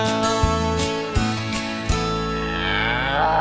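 Cows moo in low, drawn-out harmonic calls that shift in pitch, overlapping and running on, with a few brief sharp clicks in the first two seconds.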